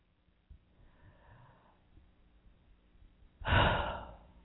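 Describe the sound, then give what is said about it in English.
A deep breath, with a faint airy inhale early on, then a quiet pause and a much louder, breathy exhale like a sigh near the end. “I'm just taking a deep breath because plugging into the universe,”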